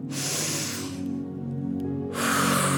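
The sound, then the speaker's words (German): A deep breath drawn in during a guided breathing exercise gives a soft, breathy rush of air over low sustained music tones. A second breath begins near the end. “Nimm nochmal einen ganz tiefen Atemzug”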